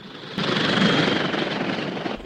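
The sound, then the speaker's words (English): Aircraft engine droning as a plane comes in to land, a steady roar that jumps louder early on and then holds throughout, with no voices. “Jim's plane comes into land, and men climb into a truck and set off for the crash site.”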